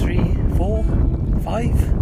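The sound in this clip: Gentle waves lap against the shore of a bay with yachts on a breezy, sunny day, mostly a low, rushing wind noise with a few brief tonal sounds.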